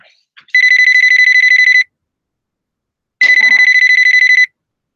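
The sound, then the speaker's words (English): Two electronic rings from a telephone on an outgoing call, heard alone. Each is a bright, high warbling tone lasting just over a second, separated by a gap of silence, with a faint click before the first. “I'm going to try that number again because it didn't go to voicemail or anything. It just hung up immediately that time. Let's try it again.”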